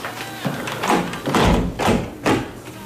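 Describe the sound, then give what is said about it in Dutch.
A window being shut beside a bed at the end of a visit gives a few dull thumps and knocks with brief rustling in between, moderately loud. “Venster terug dicht.”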